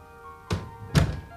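An apartment door is locked with two dull, low thunks about half a second apart, each short and muffled over a quiet background.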